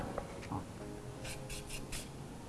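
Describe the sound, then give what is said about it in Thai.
Faint scraping as the skin is peeled off a lotus root, a few short rasping strokes in quick succession against a quiet background. “จากนั้นเราก็เริ่มปอกเปลือกครับผม”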